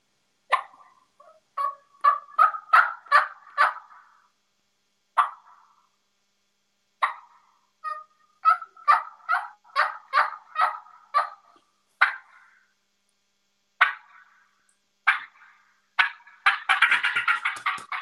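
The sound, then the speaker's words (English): A turkey call imitates wild turkey tree calls and soft yelps that grow more aggressive. Runs of short, raspy yelps are broken by pauses, ending in a denser, louder flurry of calls. “I'll go from soft yelps and get a little bit aggressive with it. So just real quick. So I start off with a tree call.”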